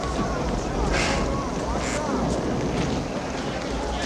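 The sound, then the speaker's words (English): Wind buffets a microphone at a crowded outdoor scene, making a loud, steady rumbling roar with a few brief gusty surges. Indistinct voices blend in underneath. “I think the wind's running through it.”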